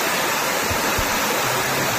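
Stream water rushing through the Barranco de los Cernícalos ravine in Gran Canaria, a steady, even roar of flowing water with no breaks.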